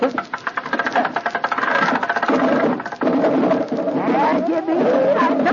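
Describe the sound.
A hand-cranked engine, struck with a crank hammer, sputters in rapid uneven pulses for about two seconds and then catches and runs with a steady, busy mechanical clatter that is loud throughout.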